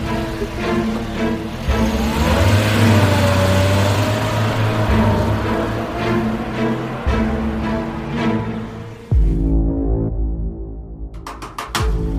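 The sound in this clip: A car engine hums and throbs steadily and loudly as the vehicle drives away, then cuts off abruptly near the end, followed by a few sharp clicks.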